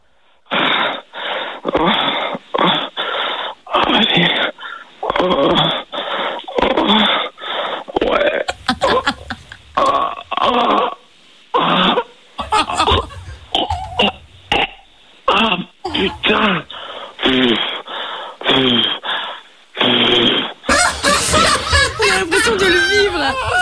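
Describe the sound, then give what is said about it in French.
Exaggerated faked orgasm moans performed as a studio game challenge, with many loud, breathy vocal bursts and drawn-out cries separated by brief pauses, mixed with snickering laughter. “C'est le moment de faire péter le plus bel orgasme de toute ta vie”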